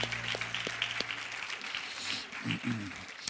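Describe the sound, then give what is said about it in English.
Applause for the mothers in a church audience during a service, a steady, dense wash of clapping that carries on without a break for the whole stretch. “Let's give our mothers a hand here before we go any further.”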